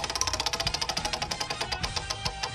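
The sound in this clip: A question wheel spun during a game gives off rapid, even ticking, many quick clicks in a continuous run, mid-loud and alone.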